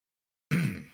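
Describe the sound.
A single brief, low raspy throat clearing bursts out after a moment of silence and fades away within half a second, faint and with no other sound.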